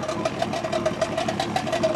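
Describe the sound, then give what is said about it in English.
A boat engine runs at a steady idle, a continuous mid-pitched hum with a fast, regular knocking pulse that holds even and moderately loud throughout, with no voices. “She takes the kids on a boat.”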